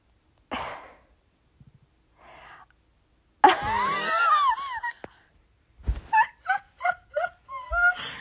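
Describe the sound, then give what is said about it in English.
Snorting laughter comes in bursts. A sharp snort leads into a wheezy, squealing laugh, followed by a quick rhythmic run of short snorting pulses with pauses between. “Oh no. Not the snort.”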